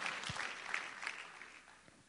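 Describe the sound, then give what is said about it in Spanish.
Faint applause from a church audience: a soft, even patter of many hands clapping that lasts about two seconds and tapers slightly at the end. “Si le va a dar un aplauso, déselo al Señor y déselo bien. Porque con ese aplauso usted y yo determinamos nuestra convicción de nuestra fe.”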